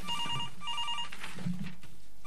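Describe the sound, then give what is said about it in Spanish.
A telephone rings in two short warbling bursts near the start, heard fairly faintly over a low background murmur after a modem cable is reconnected to the phone line. “Un teléfono sonando.”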